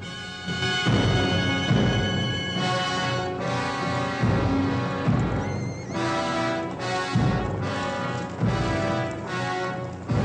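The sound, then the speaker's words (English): A herd of horses streams past, driven by a couple of Cheyenne riders. Loud drumming hoofbeats and whinnies come in repeated surges that swell and ease across the stretch. “As Josh picks his way down through the rocks, a pack of horses streams past him, being herded by a couple of Cheyennes.”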